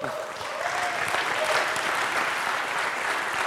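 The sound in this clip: Audience applause at a live tech-conference recording, a steady dense wash of clapping from a large crowd that holds at an even level throughout, with no voices standing out above it.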